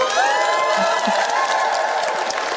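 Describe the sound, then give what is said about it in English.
A crowd at a talk cheers and makes noise when asked. Loud whoops with rising pitch and shouts rise over clapping, and the energetic, mixed crowd noise holds for the whole stretch. “If you are gay, please make some noise.”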